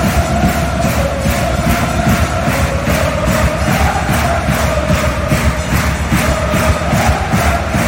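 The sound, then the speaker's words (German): Dense crowd roar from up to 10,000 spectators at an Ice Hockey World Championship match in Zurich's stadium during a Swiss game, a steady, loud, unbroken din of many voices with no clear individual shouts. “Bis zu 10'000 Zuschauerinnen und Zuschauer sitzen bei dem Match an der Eishockey-WM im Stadion Zürich. Nicht nur die machen gerade bei den Schweizer Spielen wacker Lärm.”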